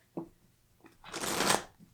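Tarot cards being shuffled and drawn: a couple of soft short taps, then one longer rustling riffle that swells and fades, faint and without talk.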